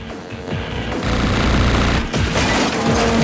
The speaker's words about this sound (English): Car jumps over the small hills, catching up with the bikers, who turn and fire at him.